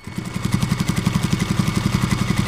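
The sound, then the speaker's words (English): Sewing machines run in a clothing workshop, Norma's Apparel in National City, with a fast, steady mechanical chatter of many rapid, evenly spaced stitching pulses. “KPBS reporter Elena Alfaro joined Ortega among the sewing machines at Norma's Apparel in National City, where his concepts become reality.”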